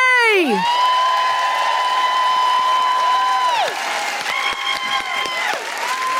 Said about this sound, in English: Please put your hands together and welcome to the microphone, the incredible Julie J!